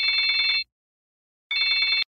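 A telephone bell rings twice for an incoming call. Each ring is a bright, rapidly trilling burst of about half a second, separated by a silent gap.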